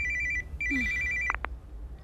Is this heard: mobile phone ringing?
yes